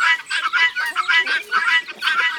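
Chickens cluck in a farmyard, a steady run of many short, bright, chattering calls that overlap one another with hardly a pause.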